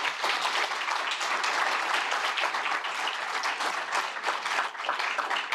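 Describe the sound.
An audience applauds the panelists at a panel discussion, with dense, steady clapping that stays loud and even throughout.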